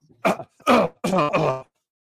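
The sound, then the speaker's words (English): A man coughing and clearing his throat: four rough, voiced bursts, the last two close together, loud and alone, followed by silence. “I got a little cough, something in my throat.”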